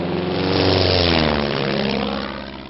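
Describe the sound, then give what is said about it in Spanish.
An airplane roars as it takes off, a steady, loud engine and propeller drone with a rich low hum that swells slightly and then begins to fade toward the end, with no voices. “Les habla el capitán del avión. Abróchense los cinturones y prepárense para volar”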